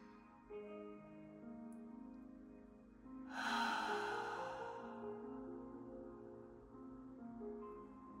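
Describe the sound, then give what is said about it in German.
A deep inhale through the nose during a guided morning breathing meditation: one breathy, airy swell rises for about two seconds and then eases away over a soft, sustained tonal backdrop. “Atme tief durch die Nase ein, dieses wunderschöne goldene Licht.”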